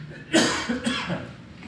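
A person coughs twice, a sharp, strong burst followed about half a second later by a weaker one, with no speech around them.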